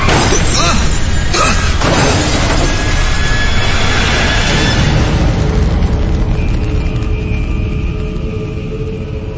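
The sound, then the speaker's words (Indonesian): A motorbike crashing into a street curb, as a sound effect: a loud, dense crashing noise with engine roar that starts with a few hard impacts and stays heavy throughout, easing only slightly at the end. “Jauh dari situ, aku pun menabrak batas trotoar jalan hingga aku harus terkapar di jalan.”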